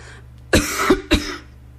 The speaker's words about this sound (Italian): Tossisco?